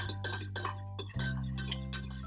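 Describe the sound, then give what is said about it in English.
A spoon stirring coffee in a cup gives a run of quiet, repeated clinks in a steady rhythm over a low hum. “oh, I'm stirring, by the way. I don't know if that's being picked up. I'm gonna try to, like, move it forward, because, like, regardless, I need this coffee more than you need”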